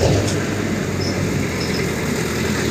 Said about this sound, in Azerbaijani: Bir ay gözləyim, maşın keç. Day keç də, day. Keç, keç.